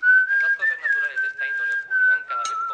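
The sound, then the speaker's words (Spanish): A clear, sustained whistled melody with gentle wavering pitch, carried in long unbroken phrases while a voice talks underneath it. “y silba, la gente silba”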